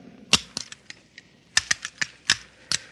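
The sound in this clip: A firing pin is fitted back into a pistol, giving many sharp, dry metallic clicks and taps in uneven bursts. The clicks come in two loose clusters with a short quiet gap between them, and no one talks.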